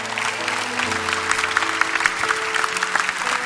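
A church audience applauds first-time guests with steady, dense clapping throughout, over sustained low tones.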